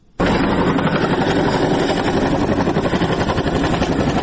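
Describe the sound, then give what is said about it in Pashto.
An American Chinook helicopter in flight, heading to a district in northern Helmand. A loud, steady rotor and engine roar with rapid rhythmic chopping sets in abruptly after a brief quiet moment and holds to the end. “موږ سنگین ته ځو خو تر یو کال وقفې وروسته د هلمند په شمال کې د نارامترین ولسوالۍ ته په یو امریکایي چینوک هلیکوپټر کې”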